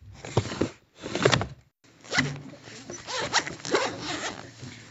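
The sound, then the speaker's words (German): A classroom storage tray is pulled open and things are taken out of it, making a few rasping, zipper-like scrapes separated by short pauses, with a longer stretch of rustling handling at the end. “Jeden Morgen öffnen wir unser Fach und holen unsere Sachen heraus.”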